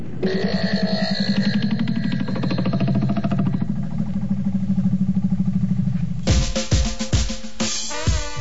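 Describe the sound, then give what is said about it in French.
A tractor engine runs with a loud, rapid, pulsing chug that holds steady for about six seconds, followed by a few louder clattering bursts. “va chercher un tracteur, s'il te plaît”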